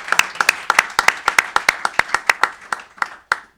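Clapping from an audience welcoming an author at Pilsen Community Books: a steady run of many distinct, sharp hand claps at an even pace that thins out toward the end.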